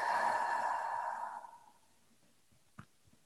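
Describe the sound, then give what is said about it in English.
A soft, gentle exhale during a guided meditation: one long, faint, airy breath that trails away over about a second and a half, leaving near silence broken by a small click. “taking a big deep breath in, and a soft, gentle, easy exhale out.”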